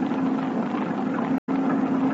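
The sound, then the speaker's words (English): A motor torpedo boat's hot engine running on the water gives a steady, even drone with a low hum. It continues unchanged apart from a momentary cut-out near the end. “Ahoy! Motorboat! We're coming aboard.”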